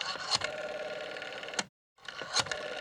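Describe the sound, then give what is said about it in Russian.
A rotary telephone dial is turned to dial 0 and then 7, giving two quiet, whirring, ticking runs as the dial spins back. A brief silence separates the runs, and the second is shorter than the first. “Я хватаюсь за диск телефона и набираю вечное 07.”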